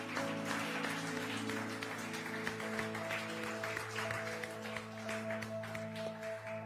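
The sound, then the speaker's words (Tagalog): Faint applause from a church audience clapping for the Lord, a soft, continuous patter of many hands over sustained low tones. “Sa pangalan ni Jesus, Palakpakan naman natin si Lord.”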